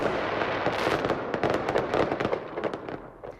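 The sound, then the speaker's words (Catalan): Fireworks at the Punta del Miracle, fired by the winning company of an international fireworks competition, burst in a rapid, continuous barrage of crackles and pops, many overlapping bangs that thin out toward the end. “La pirotècnia guanyadora del concurs internacional de focs ha estat l'encarregada de fer el castell de focs de la Punta del Miracle.”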